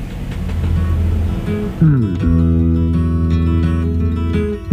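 Recorded song plays loud. A noisy wash gives way to sustained, tonal chords that hold steady with light rhythmic accents.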